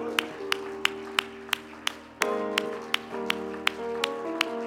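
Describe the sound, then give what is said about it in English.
Congregation clapping hands in a steady, even beat during church worship, the sharp claps evenly spaced over sustained music. “Oh, let's clap our hands to the Messiah.”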